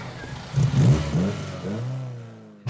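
A car engine revs and accelerates away, the loud engine note climbing in pitch in a couple of surges before settling into a steadier drone that gradually fades.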